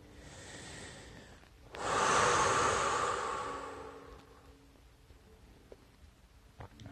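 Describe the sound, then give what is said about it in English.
A person takes one slow, full deep breath. The airy rush swells suddenly to a loud peak, holds for about two seconds, and then fades gradually into quiet, with a few faint clicks afterward. “Take a last deep breath with me before I say bye.”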